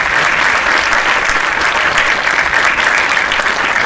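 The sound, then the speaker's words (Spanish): Audience applause fills a live stage performance with dense, steady clapping from many hands that stays loud and even for all four seconds. “Théo Cantillo, bravo, bravo, bravo, un applaudissement général.”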